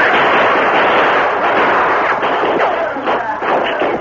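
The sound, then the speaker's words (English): Gunfire erupts in a tunnel shootout: a dense, loud volley of shots blurs into a continuous crackling roar that lasts the full four seconds, with little pause between the reports. “Give me a gun. We'll shoot our way through the tunnel. Here's an extra gun. That bullet hit the gun. We're ready if you want gunplay. We gotta get past those men. Come on, boys. Open fire and put out that lantern.”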